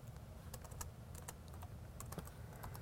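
Typing on a computer keyboard, with many quick, irregular key clicks tapping along at a soft level.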